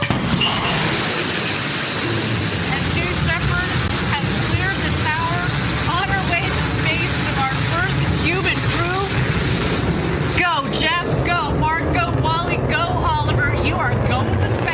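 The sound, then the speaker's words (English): The rocket engine of Richard Branson's own spaceship roars at launch, a loud, broad, unbroken rumble throughout, with voices over it and a shift in texture near the end. “becoming the first person to fly to space aboard his own spaceship. At 7, 6, 5, 4, command engine start, 2, 1.”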